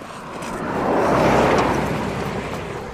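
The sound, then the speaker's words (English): A car drives past quickly on a straight coastal road, a broad rushing whoosh that swells to a peak midway and then gradually fades away. “And they do seem to like driving past us quite quickly along this stretch, don't they? It's the only bit of straight road in the whole of this part of the coast.”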